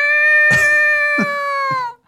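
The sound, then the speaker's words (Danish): Loud, sustained meow of a hungry house cat on a staircase, one steady high-pitched wail held for almost two seconds, with a few soft thumps beneath it. “Du følger efter katten ned ad trappen. Den bræger, som om den har sultet i 3 år.”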